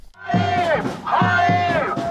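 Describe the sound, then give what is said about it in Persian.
A crowd of thousands of protesters at a demonstration in Tel Aviv chants together, many voices repeating a rhythmic, sung phrase at a steady, fairly loud level. “تظاهرات هزاران اسرائیلی در تل آویو با خواست نهایی شدن توافق برای آزادی گروگان‌های اسیر در دست گروه افراطی حماس و پایان جنگ در نوار غزه.”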